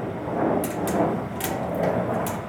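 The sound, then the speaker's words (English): A bassy rumbling at 3 a.m., like gear cases being rolled across a stage overhead, loudest in the dressing rooms below; a steady low rumble runs throughout, broken by a few brighter scraping bursts. “A bassy rumbling that was loudest when we sat in the dressing rooms sounded exactly like gear cases being rolled across the stage, which was right above our heads.”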